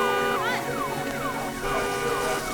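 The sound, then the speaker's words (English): A car alarm going off, a loud electronic wail of repeated falling pitch sweeps over a dense, steady tonal drone. “Sprinklers. Car alarm.”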